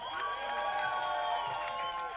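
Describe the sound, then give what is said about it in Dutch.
Cheering and whooping from an audience greeting a rap duo at an outdoor solidarity event against fascism: a steady, dense wash of many excited voices for about two seconds, with no distinct claps standing out. “Mag ik alsjeblieft een heel luid applaus”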